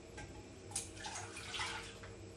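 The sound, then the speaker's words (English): Milk pouring into a saucepan while cooking makes a continuous soft liquid splash and trickle, fairly faint and even, with no talk. “I'm gonna start adding the ingredients to the saucepan now then. Okay, so I'm gonna put the milk in first.”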